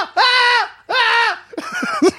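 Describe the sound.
Shrill, wailing screams from a German-made toy creature with wriggling legs: two long, loud cries, then shorter, broken squeals.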